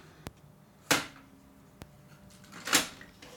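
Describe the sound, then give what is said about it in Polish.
Mechanical clicks and clacks as a cassette is inserted into a Technics RS-T330R cassette deck: two sharp, thin clicks alternate with two louder, rougher plastic clacks, each brief and separated by quiet. “Z powrotem wkładam kasetę poprawnie.”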